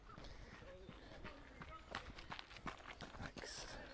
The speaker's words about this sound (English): I'll encounter groups of runners like the one that is approaching me right now at full speed.